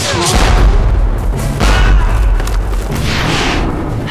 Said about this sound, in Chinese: 接下来连接狙击步枪和齿轮的绳子就会渐渐收紧，等到绷直的时候发动扳机，子弹就会飞出射中皮箱。